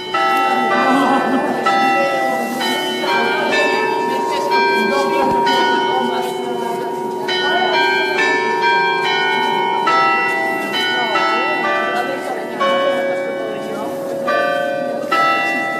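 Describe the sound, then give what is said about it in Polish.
Carillon chimes of the city bells in Gdańsk, sounding a loud, ringing melody of many struck bell notes with long overlapping decay over a steady low hum. “Kurant miejskie z Gdańska rozpoczęły tę naszą godzinę w Trójce po 17.”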